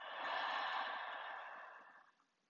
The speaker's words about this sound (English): Take a deep breath in through the nose. And exhale.